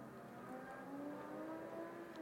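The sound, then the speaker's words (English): Faint engine revving, from a motorcycle or car, plays in the background as a low, steady drone whose tones climb slowly. “I'm not sure if you can hear that motorcycle in the background. It might be a car, but it keeps revving up for some reason,”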